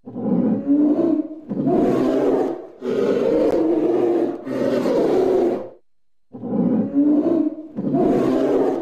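A tiger roars in a series of long, low, rasping roars delivered back to back, with a short silence before the last two.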